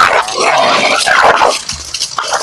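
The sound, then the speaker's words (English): Dogs fighting bark, yip and snarl in a loud, dense stream that breaks into shorter, choppier bursts toward the end. “Dogs are fighting.”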